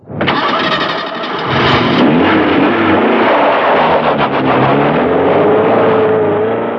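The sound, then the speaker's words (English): A car engine starts: it turns over briefly, then catches and settles into a loud, steady running drone, with no other sound. “Watney got into his car and was about to start it up when a bright light flashed into the driving mirror.”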